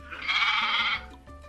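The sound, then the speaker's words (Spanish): A single goat bleats in one loud, wavering, nasal cry lasting just under a second, followed by quiet and a faint low hum. “A ver, pon ahí cómo se dice, el chivo.”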